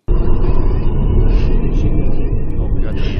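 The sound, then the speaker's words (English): Low, heavy rumble of a car driving, loud and continuous, with a few brief higher rattles near the end. “we'll have a little video from the original video that's been, you know, more or less banned from the internet. We're not going to show anything gross. Just a little snippet of the driving and turn up the volume.”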